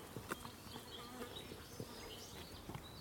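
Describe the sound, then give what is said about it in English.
Faint buzzing whine of hoverflies in a marsh, a thin, steady insect drone with a few soft ticks and taps scattered through it. “You're getting the sounds of the hoverflies, the whines of hoverflies.”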